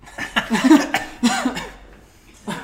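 A person with a pita chip stuck in the throat coughs in a few short, irregular, loud, partly voiced hacks. After a pause, one weaker final cough follows.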